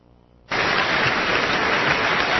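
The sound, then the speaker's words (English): Thunderous applause that bursts in abruptly after half a second of near silence, then holds as a loud, dense, even roar of clapping to the end. “What's the applause for? Do not tell me it cannot be done. Thunderous applause.”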